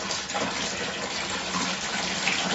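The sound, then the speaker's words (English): Water pours in a steady, loud, unbroken rush for the whole stretch, with no voices over it. “That is water.”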